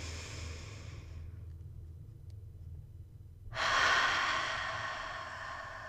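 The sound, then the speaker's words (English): Slow breathing during a guided exercise, in through the nose and out through an open mouth. An airy breath fades out early, then after a few seconds of near quiet a louder rushing breath starts and continues to the end. “Let's do two more. Breathe in through your nose.”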